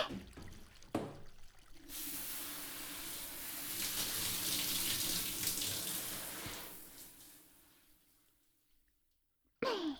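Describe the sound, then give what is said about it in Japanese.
Running water rinses someone off before a hot-spring soak, a steady loud hiss that starts after a few brief knocks, holds for several seconds, then tapers away before a short sound at the end. “んじゃ、流しちゃうね。”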